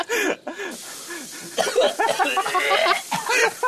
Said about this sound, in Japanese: まだむせいてるって